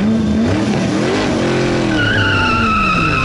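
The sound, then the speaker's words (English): A specialized roadster pulls up with a loud, sustained tire screech over engine noise; the squeal settles into steady high whining tones toward the end. “the vehicle comes into view. It's a specialized roadster adorned with Robin's logo, the Roadrunner”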